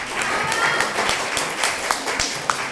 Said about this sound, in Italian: anche lei un applauso per favore a Cetti.